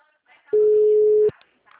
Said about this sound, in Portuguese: Só um momento, vou transferir a ligação.